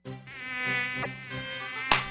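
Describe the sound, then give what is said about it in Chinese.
Mosquitoes buzz in hot weather as a thin, steady whine with a slight waver, heard alone. A couple of brief clicks break in, one near the middle and one near the end. “天哪，最近天气变好热，蚊子也变很多，一不注意手脚就被蚊子咬了。”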